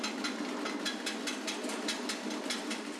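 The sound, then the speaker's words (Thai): The motor of a kaffir lime peeling machine runs as a faint, steady mechanical whir with a fast, regular rhythmic clatter that continues evenly the whole time. “พอเราเปิดสลับตรงใบบานพับตัวนี้ขึ้นมาเนี่ยมอเตอร์มันเกิดการเคลื่อนที่นะครับผลเนี่ยมันก็จะดันออกมาอย่างนี้นะครับดันออกมาช่องรูนี้”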